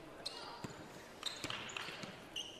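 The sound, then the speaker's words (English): A basketball dribbled at the top of the key during a women's basketball game, a few sharp, dull bounces spaced irregularly amid steady background noise and voices. “Dribbling at the top”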